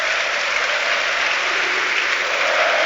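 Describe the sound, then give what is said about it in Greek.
Stadium crowd applause at a football match involving Olympiacos, during a stoppage for a possible player injury: a dense, steady roar of clapping that stays loud and even throughout. “Αλλά το χειροκρότημα πάντως του κόσμου”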